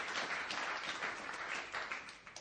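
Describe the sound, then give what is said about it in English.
Applause from a church audience at a service, a dense steady patter of clapping that stays fairly quiet throughout and tapers slightly at the end. “Let's just give the Lord an applause tonight.”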